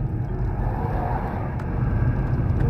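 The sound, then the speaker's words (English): Steady low rumble of a car being driven, a continuous engine and road drone of even loudness throughout, with no talking. “I wasn't drinking and driving, but I'm driving and talking”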